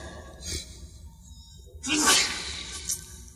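A single sneeze bursts out as a loud explosive rush of breathy hiss, with a fainter breathy sound a moment earlier and quiet background otherwise.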